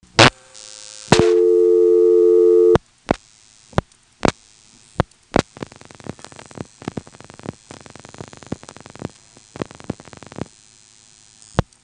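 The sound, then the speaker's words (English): Telephone exchange pulsing after dialed digits, routed through a tandem office: a steady tone, then a loud buzzing tone, followed by scattered sharp clicks and many bursts of rapid, dense click-like pulsing of varying length. “you'll hear 4 pulsing events, and then we'll dial 2899, and after each of those digits you'll hear pulsing as well.”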